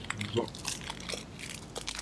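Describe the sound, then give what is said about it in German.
Plastic bag crinkling while someone eats a spiced almond left over from Christmas, with many small, faint crackles and crunches scattered irregularly throughout. “Ich esse eine Gewürzmandel, die noch von Weihnachten übrig ist. Nicht in so einer Plastiktüte. Man muss ein bisschen knistern.”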